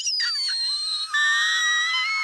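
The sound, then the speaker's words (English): A person gives a piercing, very high whistle-tone scream, held without a break for about two seconds. The thin, shrill voice wavers slightly, then steadies on a bright sustained pitch, loud and alone with no talk. “That was my best scream queen scream that I gave out without hurting your ears. That was my whistle tone scream.”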